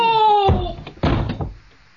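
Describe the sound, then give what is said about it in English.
A door is opened with a couple of heavy, dull thuds and rattling knocks following a brief tonal creak at the start, loud and abrupt before fading out. “Open the door”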